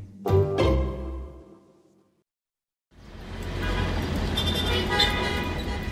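Congested road traffic gives a steady, dense roar of passing vehicles. A short louder tonal sound and a brief silence come before it.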